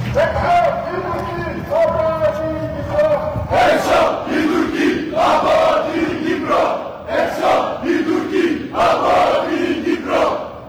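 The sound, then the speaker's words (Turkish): Protesters carrying Greek flags chant slogans near Ledra Palace in Cyprus, a loud crowd shouting short phrases in a repeating rhythmic pattern, the chant rising in clear surges. “Göstericiler eylem boyunca Yunan bayrakları taşıdı ve Ledra Palas bölgesinde bir süre slogan atmayı sürdürdü.”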